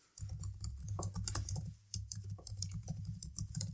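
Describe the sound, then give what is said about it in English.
Rapid typing of a password on a computer keyboard, a dense run of light, quick key clicks with a brief pause midway before the tapping resumes. “and then type in your password for the first time that you're using it, and log in.”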